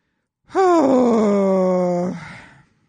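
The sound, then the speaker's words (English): A person lets out one long, guttural groan. It begins a little higher, settles into a low, steady drone and then trails off, with no other sound around it. “Do I sound like I'm miserable with that groan? That's just who I am.”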